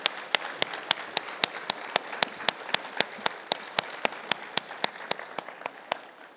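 Church audience applauding the confirmands: steady, evenly paced claps ring out prominently above a softer wash of applause, continuing at a regular rhythm throughout.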